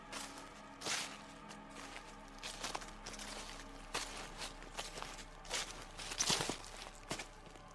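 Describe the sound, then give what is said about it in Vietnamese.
Faint footsteps rustle and crunch over fallen leaves as someone walks through a back garden at night, the irregular steps soft and scattered with a few louder scuffs. “Tiếng người đi bộ sau vườn dẫm lên lá cây sột soạt lại truyền tới.”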